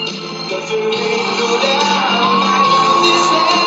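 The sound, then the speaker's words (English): A large crowd at a Trump rally cheers loudly as the leader arrives, a continuous roar of shouts and whoops that swells early and stays intense to the end. “This is the movement with its leader. Listen to the size of that crowd.”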